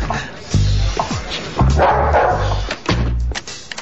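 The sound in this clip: A police dog barks inside a building in a few loud, sharp bursts separated by short pauses.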